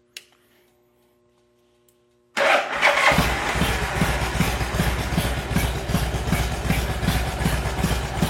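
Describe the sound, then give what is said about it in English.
A motorcycle engine cranks and catches after a near-silent moment, then settles into a loud, steady idle to warm up, with a rapid, even pulsing throb. No voices are heard. “We're gonna go ahead and start the bike, let it warm up.”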